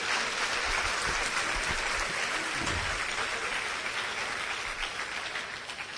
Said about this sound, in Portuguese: aplauda o Senhor